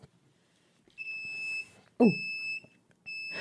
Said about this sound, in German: Super cooles Geräusch. Hast du den Startknopf oder den Beep-Knopf gedrückt? Ich hab den Startknopf gedrückt